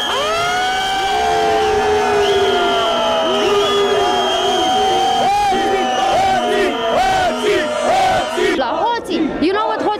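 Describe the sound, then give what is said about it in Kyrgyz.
A large crowd of protesters in Romania chants "thieves," a dense, loud, continuous roar of many voices with shouted calls rising above it throughout. “Демонстранттар эмне деп жатышат? Билесизби? Алар уурулар, уурулар деп жатышат.”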